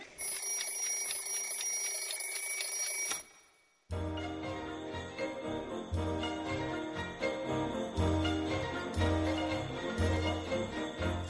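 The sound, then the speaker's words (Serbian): A children's alarm clock rings with a steady bright tone for about three seconds, then stops, and lively music follows. “Dečiji budilnik.”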